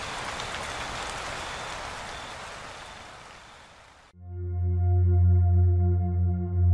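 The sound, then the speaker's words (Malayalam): Steady summer rain falls as a dense, even hiss for about four seconds, then cuts off abruptly as loud sustained low musical tones take over. “പക്ഷേ ഇതെന്തു മഴ! വേനലിൻ്റെ പാതി ദിനങ്ങളിലെ മഴ, വേനലിൽ ഒരു മഴ.”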